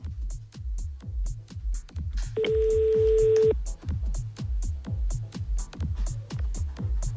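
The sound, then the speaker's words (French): A telephone call rings through as a single long, steady electronic ringback tone lasting about a second, sounding over a loud, rhythmic music bed that keeps pulsing throughout. “on appelle l'organisateur, c'est Ludo”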